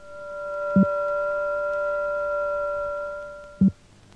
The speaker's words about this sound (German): Die Summe beträgt recht 1400, die Differenz 600 Hertz. Der Modulator hat die Töne nicht addiert, sondern multiplikativ gemischt.